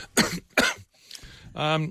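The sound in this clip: Two short, sharp coughs in quick succession, followed after a brief pause by a short voiced sound.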